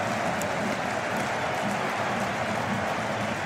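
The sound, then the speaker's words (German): Crowd cheering a goal in a football stadium during a Gladbach match, a steady, dense roar of massed voices holding at one level with no clear peaks. “Und ihr hört den Jubel im Hintergrund.”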